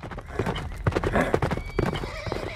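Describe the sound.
Horses gallop as three rebels flee a smoking village. Rapid, dense hoofbeats drum continuously, with a horse's whinny breaking through the pounding.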